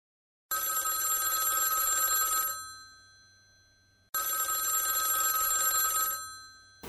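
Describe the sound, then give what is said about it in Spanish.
A telephone bell rings in two long bursts separated by a short pause. Each bright, steady ring lasts about two seconds before fading, with no talk over it. “Ay, Dios mío, otra vez ese teléfono.”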